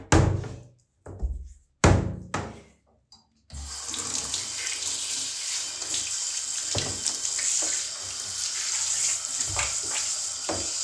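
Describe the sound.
Water running from a tap to rinse away a large clump of hair. A few short knocks and brief splashes come first, then a steady, continuous rush of flowing water lasts to the end.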